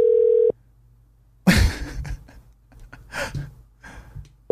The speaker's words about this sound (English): We're calling somebody from a no caller ID.